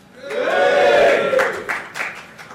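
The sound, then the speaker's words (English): Live audience noise at Liverpool Sound City: a cheering crowd swells to a loud peak in the first second, then fades with a few scattered shouts and claps. “This is the Anfield Wrap live at Liverpool Sound City. I'm Neil Atkinson, and here's some people who will hopefully make some noise.”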